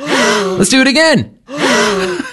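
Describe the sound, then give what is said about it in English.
A loud, voiced gasp of surprise, drawn out like a long 'ooh', sounds twice with a brief silent pause between the two. “Thank you very much for the gasp there.”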